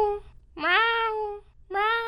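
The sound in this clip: A kitten meows in a children's drama as it is about to fall. A few high meows ring out, with one long and drawn-out and a shorter one following after a pause.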